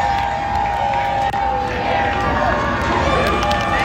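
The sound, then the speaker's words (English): Stadium crowd at BC Place in Vancouver cheering as Canada scores its sixth goal against Qatar at the FIFA World Cup: a dense, loud, sustained roar of thousands of fans that holds steady throughout. “That is the sound of fans as Canada scored its sixth of six goals against Qatar.”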